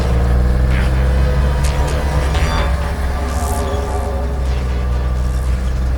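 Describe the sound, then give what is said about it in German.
A car is driven fast in a chase, its engine making a loud, steady low drone throughout, with brief higher whooshing swells rising over the rumble. “Fahr schneller, Peter”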